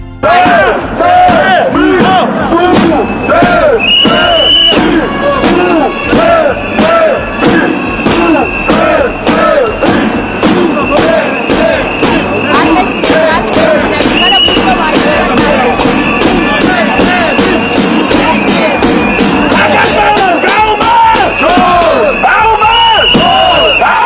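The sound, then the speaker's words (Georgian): Young protesters, students among them, chant slogans in unison during a march in Georgia against a Russian-style law. The loud shouted rhythm goes on without a break, with sharp rhythmic hits and a dense crowd behind. “მოვისმინოთ ახალგაზრდების საპროტესტო შეძახილები მსვლელობიდან.”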